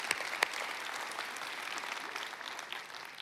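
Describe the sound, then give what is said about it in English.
A church audience applauding, steady and even clapping from many hands that stays faint throughout and lasts a few seconds. “Can we just put our hands together and show some honor to everybody who invested in us this summer?”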